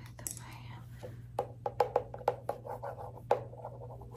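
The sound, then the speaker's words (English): Pen writing notes during a mock cranial nerve eye exam: faint scratching with several sharp clicks and taps spread over a few seconds, quiet and close, with no clear talk. “let me write that down.”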